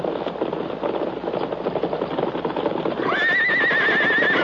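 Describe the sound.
Silver, the Lone Ranger's horse, arrives with rhythmic clip-clopping hoofbeats, then lets out a loud, high, wavering whinny that carries to the end.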